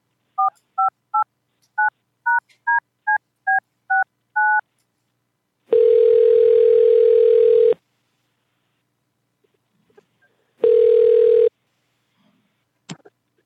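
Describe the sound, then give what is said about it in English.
A telephone being dialed on a prank call: a brisk run of about a dozen keypad tones, then two long ringing tones on the line separated by silence, the second cut short, with a faint click at the end. “Bear with me one second. I'm just going to dial up Tyrone, and we'll we'll find out what's going on here.”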